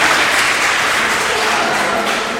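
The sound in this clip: An audience claps in dense, steady applause at a gathering, acknowledging a gesture. The clapping is continuous and even in loudness for the whole stretch.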